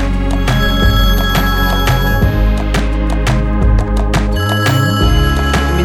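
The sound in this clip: A telephone ring tone sounds within a music track, its high steady tone layered over heavy bass and sharp percussion. It is heard early on and again near the end.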